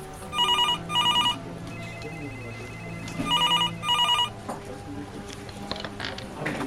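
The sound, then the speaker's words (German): An incoming call rings the telephone with two pairs of bright, trilling bell bursts, a short gap within each pair and a longer pause between the pairs, over a steady low background hum. “Und dann war da noch dieser Anruf.”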